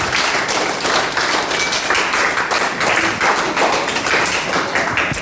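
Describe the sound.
Big applause at a school award ceremony, a thick, continuous crackle of many hands clapping that holds at an even, fairly loud level for over five seconds.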